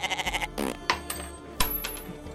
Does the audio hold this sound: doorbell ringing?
no